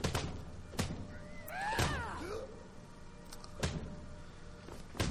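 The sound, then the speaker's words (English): Punches land in a video game fistfight between companions: a few dull, heavy thumps spaced unevenly, with a brief warbling, swooping tone between the early hits. “Oh, now they're fists. They were using weapons, but now they've resorted to fists.”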